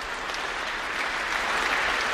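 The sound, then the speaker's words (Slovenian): Joyful applause fills Ljubljana's St. Nicholas Cathedral after the consecration of a new archbishop, a dense, even patter of many hands clapping continuously throughout. “Aplavz veselja se razlega v ljubljanski stolnici svetega Nikolaja.”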